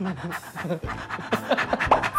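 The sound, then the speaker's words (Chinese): A person imitates a panting dog during a guessing game, with quick breathy huffs in an uneven rhythm and a short whine-like squeak near the end. “这是一狗。”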